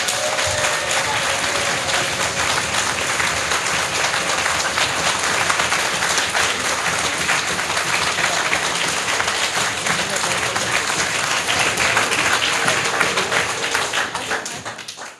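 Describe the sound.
Loud, sustained clapping from an audience asked to make as much noise as possible for a volume-measuring demonstration, an even roar of many hands that holds steady for about fifteen seconds before tapering at the end.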